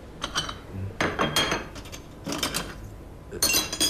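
Faint clinks and rattles of cups and metal as coffee is made in a café kitchen, coming in short bright bursts with quieter gaps between.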